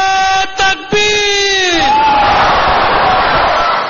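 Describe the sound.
A lone raised voice calls out at an Ahmadiyya gathering, then a large crowd shouts a slogan response in unison, a loud and sustained roar of many voices.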